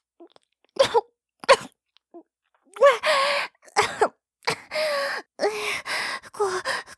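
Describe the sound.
Gagging coughs from something lodged deep in the throat come as a series of sharp, rasping bursts, some short and choked, others longer and strained, separated by brief silences.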